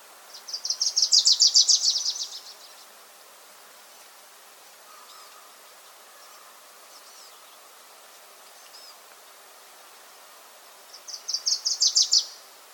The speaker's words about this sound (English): that was the Wilson's Warbler singing, that one recorded at Thimbleberry Lake.